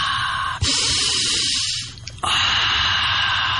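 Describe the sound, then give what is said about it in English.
Deep inhaling and exhaling during a spoken prayer: long, loud rushing breaths, one sustained airy stretch easing off briefly before another strong breath surges back. “I inhale, Lord, woo, and I exhale, Lord, sa.”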